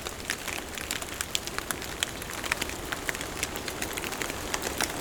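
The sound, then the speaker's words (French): Dripping from a light dusting of snow melting in a forest: many irregular, crisp drops and patters scattered over a soft, steady hiss, with no talk. “Il ne pleut pas. C'est juste la fonte du saupoudrage de neige”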